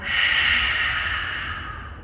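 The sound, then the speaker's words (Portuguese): A single long, deep breath drawn in through the nose during a Lu Jong therapeutic yoga exercise, a loud airy hiss that holds steady and then slowly tapers off over about two seconds, heard alone. “Puxa o ar, transforma.”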